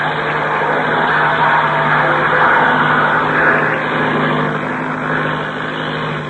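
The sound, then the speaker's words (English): An airplane engine runs at full throttle while the plane climbs, giving a loud, steady, rough drone that holds an even level throughout without clear changes in pitch. “Okay, I'll open the throttle and stick her nose up.”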